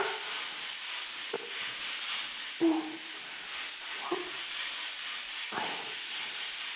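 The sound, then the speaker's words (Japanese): Scrubbing a large back while washing it: a soft, steady rough hiss of rubbing, with a few light knocks at roughly regular intervals and no talk. “ゴシゴシしてあげるのも一苦労だな。”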